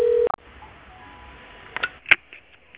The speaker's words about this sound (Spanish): deje su mensaje después de la señal